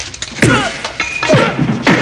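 A fight in which two armed thugs are taken down with a headbutt and a forearm smash: a few sharp thwacks and thuds with pained grunts between the blows.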